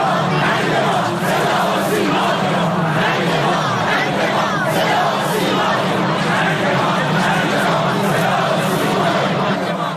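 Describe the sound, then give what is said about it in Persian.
A large crowd chants harsh slogans along the route of Hashemi Rafsanjani's funeral procession. Many voices shout loudly in a dense, continuous roar that never lets up. “در مسیر تشییع پیکر آقای هاشمی رفسنجانی، صدا و سیمای جمهوری اسلامی با شعارهای تند بخشی از مردم روبرو شد”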